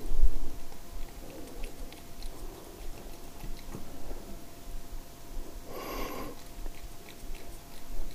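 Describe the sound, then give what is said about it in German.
A dog eating food from its bowl: faint, irregular chewing and crunching run throughout, with one louder snorting burst near the end and no talk. “es dauert jetzt noch ein bisschen, sie frisst und frisst und frisst.”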